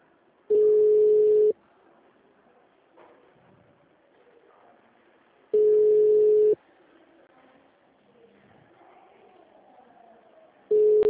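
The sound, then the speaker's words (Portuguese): Ringing tone of an unanswered telephone call: three long, steady, mid-pitched beeps about five seconds apart, the last cut short at the end, with faint background noise in the gaps. “Chamou até cair.”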